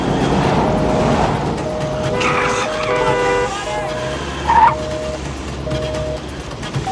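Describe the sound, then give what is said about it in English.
Car horns honk in heavy four-lane traffic as a car zigzags recklessly between lanes. Several sustained horn blasts overlap above a steady traffic rumble. “Without slowing down, it cuts back and forth across all four lanes, barely missing other cars. Jack zigzags recklessly through traffic.”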